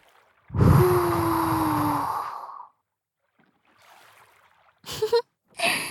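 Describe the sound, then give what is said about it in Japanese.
A soft breath is blown close into the ear as one long, airy exhale lasting about two seconds, followed by quiet and then a few faint short sounds. “ふぅ、息を吹きかけられるのお好きですか？じゃあもう一度。”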